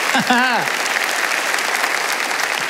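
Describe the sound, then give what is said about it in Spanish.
A church audience applauds, a dense, continuous patter of many hands that follows a short, raised voice at the very start and stays fairly loud and even to the end. “Alguien tiene que aplaudir más que eso si lo crees. ¡Aleluya!”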